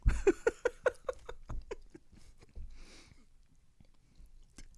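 Someone chewing food: a quick run of many crunchy, rhythmic bites that are loud at first, then give way to softer, sparser mouth sounds.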